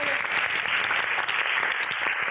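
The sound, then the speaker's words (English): Audience applause fills the whole stretch as a dense, even wash of many hands clapping loudly and continuously, with no single voice standing out. “Can we give Jason a huge round of applause?”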